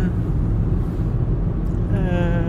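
Steady low rumble of a car driving along a hilly road near Ebeltoft, a dense, unbroken engine and road drone that holds level throughout, with faint tonal whine appearing toward the end.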